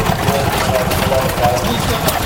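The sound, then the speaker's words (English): The steady drone of an engine-driven machine grinding flour, shown among old running engines. A constant low rumble with a busy, even mechanical texture runs without a break at a fairly loud level. “I'm making flour. Yes, it's wanted to grind some flour. Nice machine to grind.”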